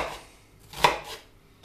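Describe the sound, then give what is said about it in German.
Knife chopping half an onion: a few dry strikes, with one sharp, louder chop standing out among softer cuts, and no talk over them. “Und in der Zwischenzeit schneiden wir noch schnell eine halbe Zwiebel klein.”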